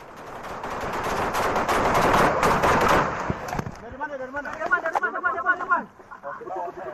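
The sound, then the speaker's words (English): Heavy gunfire directed at Indonesian soldiers: dense, rapid bursts of shots crackle loudly for the first half, then thin out as voices rise over the scattered remaining shots. “This unverified footage of Indonesian soldiers under heavy fire emerged over social media on Saturday”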